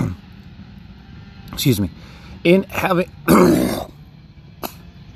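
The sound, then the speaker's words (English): Throat clearing during a scripture reading: a few rough, guttural bursts of hacking and clearing, separated by brief pauses, ending with a short final rasp. “God, clear my throat.”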